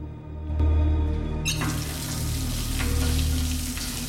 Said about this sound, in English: He goes over to a basin and washes his hands.